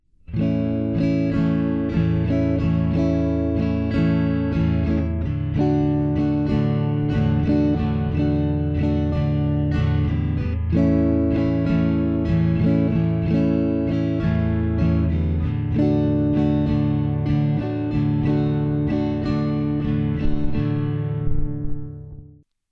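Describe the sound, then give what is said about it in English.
Guitar chords strummed with a calypso rhythm play without stopping, a steady, full-bodied strum that moves through several chord changes with no breaks, then rings out at the end. “Eventually, you'll want the chords and the calypso to sound like this.”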